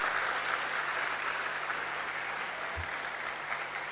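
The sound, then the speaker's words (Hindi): Audience applause at a spiritual gathering, a faint, steady patter of clapping that continues evenly throughout. “एक बार अपने लिए जोर से तालियां बजाएंगे और जोर से तालियां”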